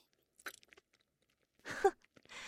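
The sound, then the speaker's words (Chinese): Chewing and swallowing: a few soft, wet mouth clicks, then a louder gulping burst and a brief smacking sound, all faint and sparse. “你何必要用这么下贱的方式去吞咽呀？本来我也想看你如何细嚼慢咽的品味这里面的滋味。”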